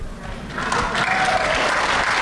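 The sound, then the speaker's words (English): An audience breaks into applause that swells after about half a second into dense, steady clapping and stays loud to the end. “Look at that applause.”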